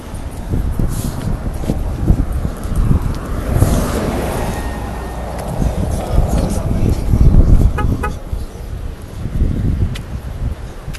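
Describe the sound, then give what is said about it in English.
Gusty seaside wind on a sunny day, buffeting the microphone with a continuous low rumbling roar that surges and eases, while indistinct voices of people nearby murmur underneath. “Lots of people here at the seaside enjoying the Sunday sun and the Sunday wind.”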